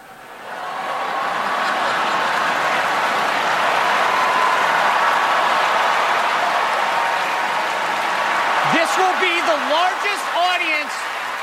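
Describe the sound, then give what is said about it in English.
The Emmys audience laughs and cheers as Sean Spicer rolls onto the stage on a podium, a sustained broad roar of crowd noise. A voice begins speaking over the fading crowd near the end. “All that laughter and cheering was because Spicer's cameo had him rolling onto the Emmy stage on a podium”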